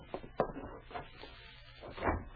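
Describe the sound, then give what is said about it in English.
Sharp, pounding knocks on a wooden door: a few heavy, irregular thuds spread across the moment, with short gaps between the blows. “someone pounded sharply on the door”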